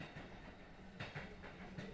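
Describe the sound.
A passenger train running on rails, heard from aboard: a steady low rumble with a few rhythmic clacks of the wheels, fairly faint throughout.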